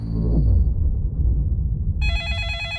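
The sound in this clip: A telephone at a police line in the middle of the night starts ringing near the end with a bright, steady electronic ring over a low rumbling background.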